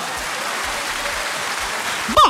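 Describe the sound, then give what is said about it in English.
Applause from an audience at a word-spelling quiz: a steady, dense wash of clapping that runs unbroken through the whole moment, with a brief vocal sound at the very end. “you deserve a round of applause.”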